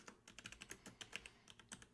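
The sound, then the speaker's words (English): Typing a reply on a computer keyboard: many quick, faint keystroke clicks in an uneven rhythm, with no talking. “I'm going to hit that like button and type back to him.”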